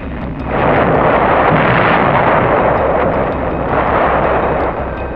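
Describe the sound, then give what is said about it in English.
Artillery support fire with shells firing and going over, a loud, dense, continuous rumbling roar that holds steady throughout with no clear separate blasts. “The sound of shells going over can be a mighty friendly sound.”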